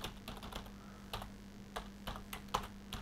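Fingers type a web address on a computer keyboard in many quick, faint key clicks with an uneven rhythm over a low steady hum, with no speech.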